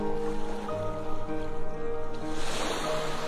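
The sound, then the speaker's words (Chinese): Sea waves wash onto a sandy beach in a steady, rolling surge of water noise, heard beneath soft, sustained music. “微风轻轻地吹拂着我们的衣衫，倾听着海浪的声音，闻着海水带来的咸咸的味道，”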